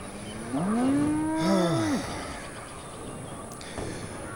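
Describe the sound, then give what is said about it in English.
A cow's single loud, drawn-out moo from a cow bowling video game, swelling and then trailing off over a steady background hum. “So the cat is sitting on me. And, oh, we're bowling for cows.”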